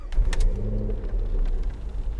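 Car engine rumble played as a background effect for a driving scene in a tabletop role-playing game, a steady, low, continuous drone with no talk.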